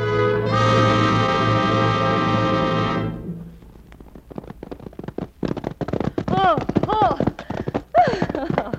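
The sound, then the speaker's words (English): Horses gallop in a race between two riders, a rapid, uneven clatter of hoofbeats that follows a sustained musical chord, with voices speaking over the hooves toward the end. “Oh, a good race, Juanillo. You ride like the wind, Doña Sol.”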